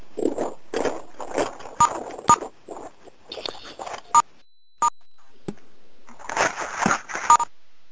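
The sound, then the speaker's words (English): Phone keypad tones sound as callers on a conference line press star six. Several short, sharp beeps are scattered among rustling, clattering background noise and muffled sounds. “Can everybody just press *6 for a moment, please?”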